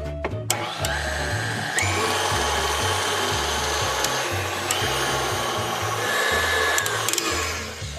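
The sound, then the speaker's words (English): Electric mixer whirring as it blends a teaspoon of vanilla extract into egg-rich bar batter, a steady loud motor drone with a rhythmic low churning pulse running throughout, no voices. “And as if these bars weren't flavorful enough, some vanilla extract, 1 teaspoon. Then just mix it combined.”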